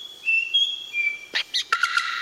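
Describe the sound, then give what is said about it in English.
A bowerbird, native to Australia and Papua New Guinea, mimics the calls of other birds: long clear high whistles that step in pitch, then a few quick, sharp chirps, with no other sound. “These birds have an incredible ability to mimic a huge variety of sounds in their environment. They can recreate the sounds of other birds,”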